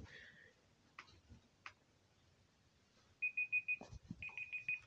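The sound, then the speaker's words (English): An electronic device beeps in two quick bursts of rapid, high, evenly spaced tones, with a few soft clicks and thumps before and between them. “it's beeping.”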